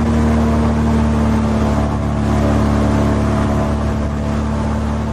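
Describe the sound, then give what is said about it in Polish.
An airboat with a large rear propeller speeds across the swamps of the Everglades in Florida. Its engine gives a loud, steady droning hum with a constant low tone that holds unbroken throughout. “W tle słyszą Państwo specjalną łódź, która z tyłu ma duże śmigło. Porusza się ona bardzo szybko po tamtejszych bagnach.”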